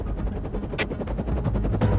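Helicopter flying toward a harbor during a police search: a loud, steady rotor roar with a fast, regular chopping pulse that runs unbroken through the whole clip.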